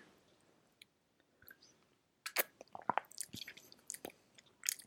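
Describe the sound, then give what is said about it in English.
Quiet, close sips of coffee taken during a break: soft wet slurps mixed with many small mouth clicks, in irregular bursts after a near-silent start. “Let me take a little little coffee break here.”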